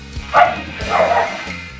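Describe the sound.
Excited dogs bark in a few loud, yappy bursts with short whimpering yips between them, while faint voices can be heard underneath.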